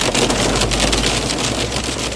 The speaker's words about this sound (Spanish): el granizo ha vuelto a irrumpir con fuerza en La Rioja